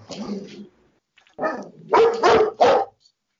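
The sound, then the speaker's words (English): A very large, spoiled pet dog barks in a few short bursts separated by brief pauses, the later barks louder and closer together. “Anybody want a very large spoiled dog?”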